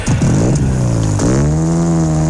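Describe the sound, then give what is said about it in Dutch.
A car engine revs as the throttle is opened: quick rising and falling blips at first, then a dip and a climb into a sustained higher-pitched drone, loud and alone. “Beetje gas geven.”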